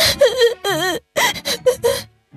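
A child crying in wailing, sobbing bursts, several loud voiced cries broken by short catches of breath and wavering in pitch, then falling quiet at the end.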